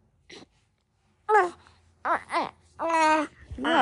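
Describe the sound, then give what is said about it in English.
An infant fussing and crying in several separate wailing bursts with wavering, rising and falling pitch. Short gaps fall between the bursts, and the last bursts are longer and louder. “One second, my baby is fussing.”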